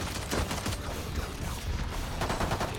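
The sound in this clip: Rapid gunfire in a shooter video game: dense, overlapping sharp shots and mechanical clatter fill the whole stretch at a steady, moderately loud level.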